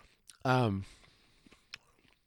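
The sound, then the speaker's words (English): Crunchy tater tots being chewed: a few faint, sharp crunching bites after a short voiced hum from the eater, quiet between the bites. “So, wow, these tots are super crunchy. Sorry for the crunch, guys.”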